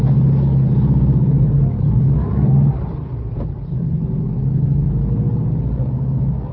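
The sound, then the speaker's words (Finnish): A car engine rumbles at a customs checkpoint on the sector border between West and East Berlin, near Potsdamer Platz. The low, steady drone lasts about six seconds, loud and continuous, easing slightly partway through, with no voices over it. “Tämä oli auton tullitarkastus Länsi- ja Itä-Berliinin rajalla.”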